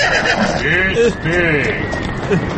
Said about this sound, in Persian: یا خدا، این اسب سوار کیه داره نزدیک میشه؟